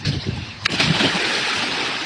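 Water splashes as people plunge into a river to bathe: a sharp burst, then a broad, continuous churning rush of water that stays steady and loud to the end.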